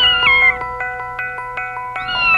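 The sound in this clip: A small black kitten, the confectioner's cat, meows in two high gliding cries, one falling at the start and one rising at the end. Between them a steady ringing tone carries evenly spaced soft pulses.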